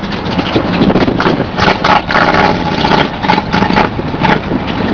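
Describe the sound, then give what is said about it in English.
Motorcycle engines running in Rapid City, South Dakota, a loud, steady, low idling drone with uneven throttle surges throughout and no talk. “That's the noise of the bikes.”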